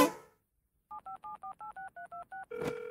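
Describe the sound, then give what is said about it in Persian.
A telephone number is dialed with nine short touch-tone beeps in a quick, even rhythm, each a steady pair of notes. A louder buzzy tone with some noise follows right after. A brief faint rustle comes before the dialing. “خب بهتره با پتی تماس بگیریم و بهش اطلاع بدیم امروز نمیتونیم بریم سر کار.”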